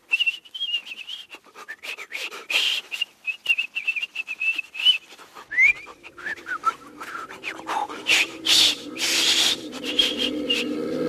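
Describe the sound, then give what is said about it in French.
A person whistles a long, steady, high tone, then a few shorter gliding notes, while scraping, rustling clicks and rubbing noises sound throughout and grow heavier toward the end. “Oui, sifflons! Je vais siffler!”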